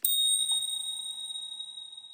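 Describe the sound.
A steady, high-pitched electronic censor beep covers a spoken word. It starts sharply and holds one continuous tone for about two seconds with no voices heard.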